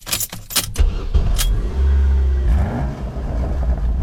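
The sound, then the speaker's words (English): A Ford Mustang Fastback's engine revs after a few sharp clicks and rattles, swelling into a loud, sustained low roar that holds steady with slight surges to the end. “This pony needs a new home. Wild Rose Casino and Resort Jefferson has an exclusive drawing for our VIPs. Earn entries now for your shot at a new Ford Mustang Fastback.”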